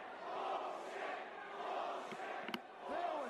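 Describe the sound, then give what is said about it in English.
A wrestling crowd boos a match at a 1994 event, a loud, steady roar of many voices that swells and dips throughout without letting up. “Oh, the crowd's giving it to him too.”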